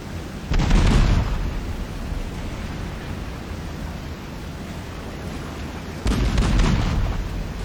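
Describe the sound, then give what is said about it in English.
Two heavy booms ring out as naval turret guns fire at a cargo hulk in Battlestations: Midway, with a dull, noisy rumble lingering between the blasts. “Shoot that cargo hulk five times.”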